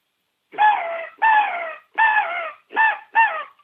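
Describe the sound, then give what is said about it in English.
Five harsh, rasping caws are blown on an ARO hunting crow call with a cupped hand over its end, used to locate turkeys. Each blast is a short, loud note that slides slightly downward, with brief silent gaps between. “on the end of the ARO crow call and check out how realistic this sounds. You know, and I've got my hand cupped over the end of it. So I usually want to hit three or four blasts like this”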